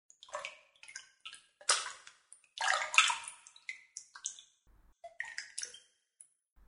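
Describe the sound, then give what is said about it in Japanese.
Water splashing and trickling in a bathtub being filled for a bath, heard as many irregular bursts of splashes and drips separated by short gaps, fairly faint, with no voices. “お風呂の準備ができてるか確認してきますね。”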